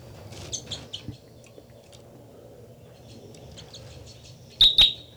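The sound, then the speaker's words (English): Bird song from a recorded study bird: clusters of quick, high chirping notes early on, a quieter stretch over a low steady hum, then two loud, sharp high notes close together at the end. “This is the song of Bird 318.”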